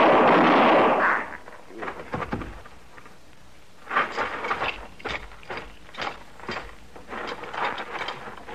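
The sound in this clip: A gunshot sound effect from a radio western drama opens with a single loud, broad blast lasting about a second, followed by a run of quieter sharp knocks and clatter.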